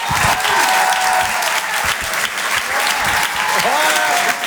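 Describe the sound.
An audience greets a comedian taking the stage with dense, continuous clapping and cheering that stays loud and steady throughout, with occasional shouts rising above the applause.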